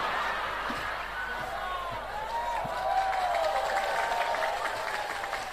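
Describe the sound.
Applause with scattered laughter from an audience, a soft, steady patter of clapping that swells a little past the midpoint and then carries on evenly.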